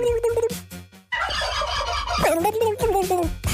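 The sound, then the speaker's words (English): A real turkey gobbles in a loud, rapid rattling burst, then gives warbling, wavering calls. “So we've just got a sound of an actual turkey”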